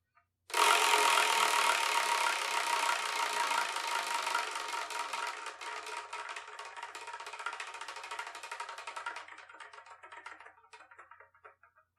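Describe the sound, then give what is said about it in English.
A wheel spun to pick the next manga review: a long run of rapid clicking that starts abruptly, gradually thins and slows, and fades out after about ten seconds. “So let us spin and see what we're going to review the next episode, shall we?”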